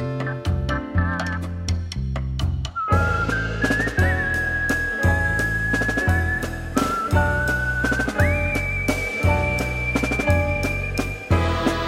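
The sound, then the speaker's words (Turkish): A music track centred on whistling: a sustained whistled melody enters after a short rhythmic instrumental opening and carries on over steady beats and bass, stepping up to a higher held note later on. “İşte albümün sonunda da ıslık çalınan, sadece ıslık çalınan bir parça olması biraz böyle bir çağrıydı, bir tür barış çağrısı.”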